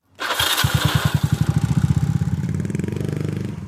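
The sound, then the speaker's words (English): A Honda motorcycle is started with its electric push-button starter. A brief whirring leads into the engine catching, then it settles into a rapid, even, thumping idle that continues steadily to the end. “So, no more brutish kickstarting your bike. With the Honda, you simply push a button.”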